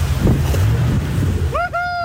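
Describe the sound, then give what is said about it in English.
A jet boat speeds on a river from central Queenstown, giving a loud, steady roar of wind and rushing water with a low rumble underneath. A voice rises briefly near the end. “Mr Luxon and National Party colleagues boarded the K2 jet boat in central Queenstown.”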